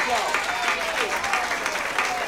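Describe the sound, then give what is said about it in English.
An audience applauds a live band with dense, steady clapping that holds an even level throughout, while a voice carries on over it. “So how about a nice big round of applause for the band?”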